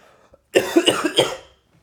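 A person coughs in a choking fit: several harsh, rasping coughs in quick succession, loud and alone, tapering off at the end.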